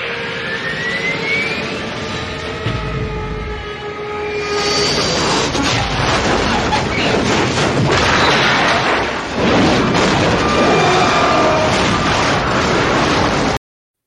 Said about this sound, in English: Robert asked me to put a bombing sound in there, so I did.